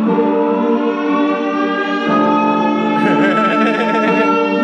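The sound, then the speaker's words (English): Siren sound effect: a loud, continuous, harmonically rich wail that holds its tone, then wavers and shifts in its later part, with no voices. “I'm gonna hit you with a siren too.”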